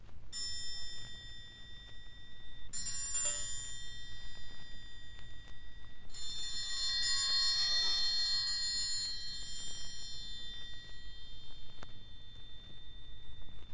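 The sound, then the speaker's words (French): An orchestral triangle rings with bright, sustained high metallic tones. It is struck with a couple of separate strokes, then played in a rapid shimmering roll lasting several seconds before fading into a lingering ring. “On peut battre le triangle par coups séparés, mais aussi par roulement.”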